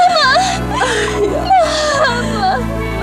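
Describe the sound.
A child crying in whimpering, wavering sobs that rise and fall in pitch, loud and continuous over a low, steady background tone.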